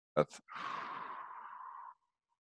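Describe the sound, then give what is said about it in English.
A breath exercise: a brief intake of air followed by a long, steady breath out lasting over a second, soft and airy, with nothing else heard around it. “if you just breathe in and then breathe out a longer breath”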